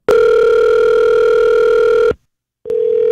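A loud, steady telephone dial tone hums for about two seconds, cuts out abruptly into silence, then returns for the last moments. The pitch is constant and there is no talking.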